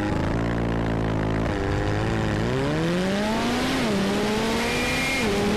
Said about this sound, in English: Now we're going to jump on board the McLaren, and you can see how hard it has to try.